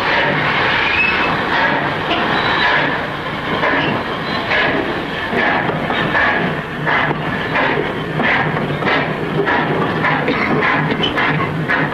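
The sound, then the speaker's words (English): A troop train of boxcars pulls out, carrying soldiers toward camp. It makes a continuous loud rumble with rhythmic clickety-clack of the wheels throughout, and no voices are heard. “Well, come on, lads. Here we go. The train pulls out.”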